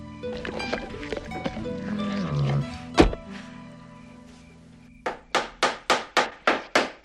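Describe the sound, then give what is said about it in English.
A hammer drives boards onto a broken laundry room door. Some tonal sounds and a single heavy bang come first, then a quick, even run of sharp, loud blows near the end. “Scott hammers boards onto the broken laundry room door”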